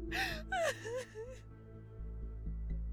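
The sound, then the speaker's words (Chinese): A woman cries loudly in a few wailing, quavering sobs. They then fade into quieter whimpering breaths over a low steady hum. “杨幂内心百感交集，心里的委屈却没办法对闺蜜说，于是。只能放声大哭”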